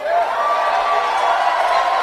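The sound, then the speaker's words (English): A crowd of supporters boos Bernie Sanders at a rally before the DNC kickoff. It is a loud, sustained mass of voices holding a wavering, droning tone throughout. “Here's what it sounded like when Bernie Sanders was being booed by his own supporters.”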